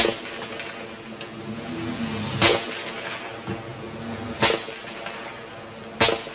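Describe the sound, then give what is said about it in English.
Sharp gunshots crack out as Bosnian forces return fire after a sniper attack on civilians in a city. A few loud reports come seconds apart over a low, steady background rumble. “Bosnian forces return fire.”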